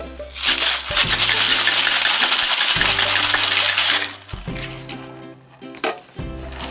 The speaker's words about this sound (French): Et voilà. Donc, on shake le tout.